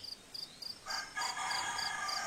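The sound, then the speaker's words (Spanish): A rooster crows in one long, loud, harsh call that starts about a second in and holds to the end, preceded by a few short, high, chirping pulses. “ya está el gallo, ya está cantando”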